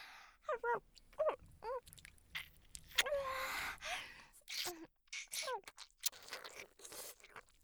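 Someone eats food starting from its outer edge, with quiet, crisp bites and chewing crunches repeating many times among short breaths and brief vocal sounds.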